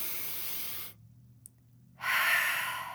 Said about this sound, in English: Inhale, sweep your arms overhead and bring an open mouth exhale to your heart.